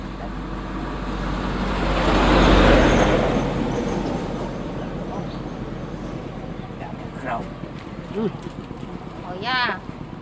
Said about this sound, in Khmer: ស្ថិតនៅតាមបណ្ដោយផ្លូវដីហុយនៅក្នុងឃុំនេះដែលមានរថយន្តធំធំជិះឆ្លងកាត់